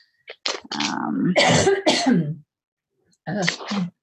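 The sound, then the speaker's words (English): A person with phlegm in the throat coughs and clears it in a harsh run of loud bursts, falls silent for a moment, then gives one more short bout of coughing. “Spring is here. I've got all this junk in my throat.”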